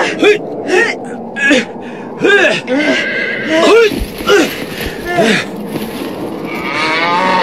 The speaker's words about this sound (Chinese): 小牛犊子，你不要动